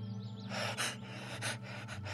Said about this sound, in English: she was making these odd, raspy noises, like she couldn't quite catch her breath